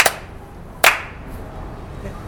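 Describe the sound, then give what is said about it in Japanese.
Two sharp ritual hand claps at a Shinto shrine, one at the very start and the second a moment later, each crisp and loud, followed by quiet background. “二拍手”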